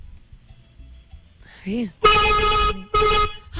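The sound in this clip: A car horn sounds in two loud, sustained, steady-pitched blasts, the first longer than the second, after a brief voice.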